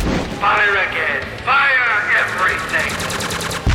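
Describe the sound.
Weapons fire in an audio drama battle scene: rapid, rattling bursts of gunfire mixed with loud shouting voices, and the firing becomes a dense, fast stutter toward the end.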